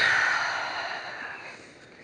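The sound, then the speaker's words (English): An audience breathing out together in one long collective exhale, a soft breathy rush that is loudest at the start and gradually fades over about two seconds. “why don't we all, right now, together, take one big collective deep breath in? Ready? In. And out.”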